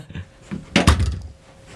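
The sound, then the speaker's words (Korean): A house's front door being opened, heard as one short, solid clunk with a faint knock just before it, then quiet. “장영호는 현관문을 열었다.”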